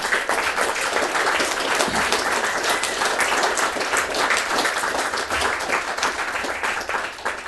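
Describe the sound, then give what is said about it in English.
An audience applauds at a meeting, thanking a council staff member with dense, steady clapping that holds at an even level for several seconds. “So honestly, Dame Omega really does deserve a wee round of applause.”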